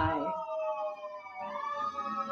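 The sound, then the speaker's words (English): An ambulance siren going by on a busy street, a faint wailing tone that slides down, dips, then climbs again, heard alone without talk. “And if you can hear that ambulance going by, I am very sorry.”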